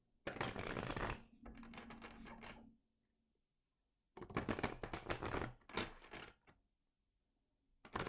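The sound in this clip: Tarot cards being shuffled: dry, papery riffles come in two long bursts of a couple of seconds each, separated by silence, with a brief start of another burst at the very end. No voices.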